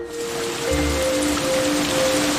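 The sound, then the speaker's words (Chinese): Rain falls suddenly as a steady, dense hiss that thickens slightly after the first moments, with faint sustained tones humming beneath it and no voices. “哎，这怎么突然还下雨了呢？”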